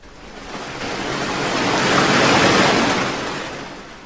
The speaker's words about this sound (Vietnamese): Ngọn sóng quật xuống